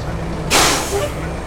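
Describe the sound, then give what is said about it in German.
Air brake hiss from a municipal sanitation truck halting on a street: a sudden loud burst of hiss that fades over about half a second, over a low, steady engine rumble. “Kurz hinter dem Palaseum kommt der Wagen zum Stehen.”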